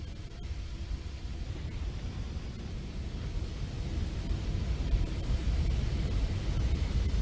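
Steady aircraft engine drone from a flight video game, heard from the cockpit: a broad, low, even rumble that grows slightly louder toward the end, with no talk.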